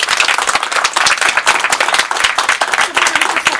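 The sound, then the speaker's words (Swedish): An audience applauds to thank a speaker at the close of a long seminar. The applause is loud and lively, with many distinct, sharp hand claps in an uneven, busy rhythm throughout. “Vi får tacka dig så hemskt mycket. Vi ger en applåd.”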